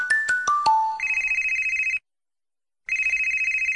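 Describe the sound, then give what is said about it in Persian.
A telephone rings and nobody answers. Four descending chime notes lead into a rapid, warbling ring tone that cuts off into a brief silence and then starts again. “در حال حاضر مشترک مورد نظر غرق در شنیدن جمعه ایرانی بوده، تماس شما را پاسخ نخواهد داد.”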